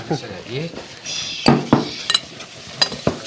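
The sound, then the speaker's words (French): Utensil clinks and scrapes against a mixing bowl while melted butter and sugar are stirred together, a few sharp knocks spaced irregularly over a soft, continuous background. “maintenant que le beurre est fondu, on va mettre le sucre. On va mélanger le sucre. Non, là, on peut mélanger tout ça déjà. On peut commencer à mélanger. Dans le saladier, donc.”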